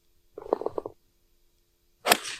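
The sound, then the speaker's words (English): A golf club strikes a ball on grass during a drive: one sharp, bright crack near the end that fades quickly, after an earlier short, softer burst of sound. “Come on in and just have a listen to the golf swings.”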